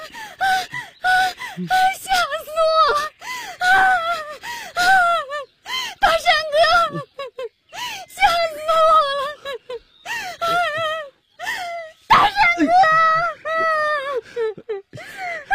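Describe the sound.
A woman cries and whimpers in a dramatic scene, with repeated high, wavering wails and sharp gasping breaths that break into many short bursts.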